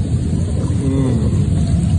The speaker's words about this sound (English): Here I am at home, taking a jacuzzi, smoking a little stogie.